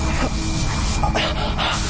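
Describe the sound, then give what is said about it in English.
Spray hissing onto tightening threads to break them, heard as a few short bursts of hiss over a steady, noisy bed, with no talk. “The threads can only be broken with this spray, otherwise they tighten.”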